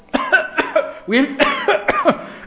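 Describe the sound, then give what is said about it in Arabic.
A voice imitates a rapid run of short, harsh coughs, as from someone who has sprayed on far too much perfume. The coughs come in quick, loud bursts with no other sound behind them. “هو شخصيا بعد ما يحط بيفضل يكح”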